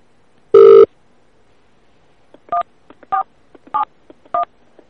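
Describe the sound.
Telephone touch-tone dialing: one longer, louder beep, then four short, evenly spaced dial tones with faint clicks between them.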